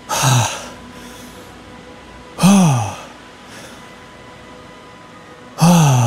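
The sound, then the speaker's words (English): A voice imitates gasping for breath with three sharp, loud gasps separated by pauses, each a quick rising-then-falling intake, with faint breathing in between. “oh, like when you get out of breath and you're kind of going,”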